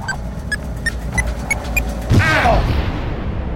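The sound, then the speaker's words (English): A sci-fi explosion effect: a missile detonated by rock particles in a dense cloud of crystals and rock dust. A few evenly spaced short beeps lead into a sudden loud boom with a falling, sweeping rumble that lingers. “We'll be damaged, but the rock particles should detonate the missile.”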